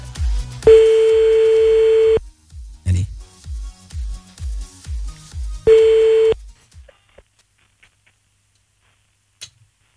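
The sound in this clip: A phone call ringing out on the line, with two long, loud ringback tones separated by a gap. Regular soft ticking clicks run between the rings before the line falls nearly silent.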